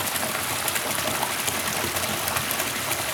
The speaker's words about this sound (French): tu sens l'eau qui monte?